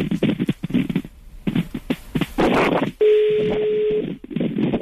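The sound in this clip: A phone call going to voicemail: choppy, voice-like audio, then a single steady, low beep-like tone lasting about a second, followed by more choppy sound.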